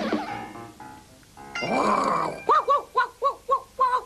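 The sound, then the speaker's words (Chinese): Dog barking imitated by a human voice in a 1987 Cantonese animated series: a gruff, growly vocal sound, then a quick, evenly spaced series of about seven bark-like yelps. “哎呀，冇搞错噶，一定系只狗嚟噶。”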